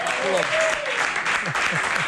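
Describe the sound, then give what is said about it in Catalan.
Studio applause fills the whole stretch as a steady, loud wash of clapping, with a few voices calling out over it. “Home, un aplaudiment. Bravo. Molt bé.”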